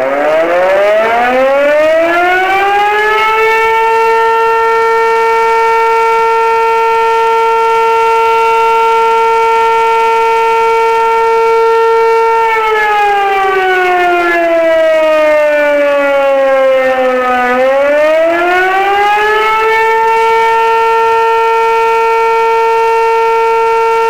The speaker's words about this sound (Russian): В проверке также принимают участие со звуковыми сигналами автомобили пожарной части, отдела полиции и поисково-спасательного подразделения.